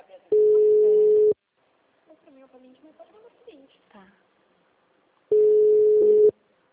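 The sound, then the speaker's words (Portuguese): Two long, steady telephone line tones, each lasting about a second, on a phone call that had dropped. A faint voice speaks in the gap between them. “a ligação caiu, eu estava falando, escutando, e do nada ficou mudo.”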